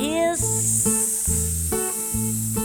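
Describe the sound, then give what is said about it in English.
A voice imitates a snake's hiss in a children's circus song: a bright, sustained hiss carried over plucked accompaniment with a steady, repeating bass pattern. “I saw the wild snake, and the wild snake”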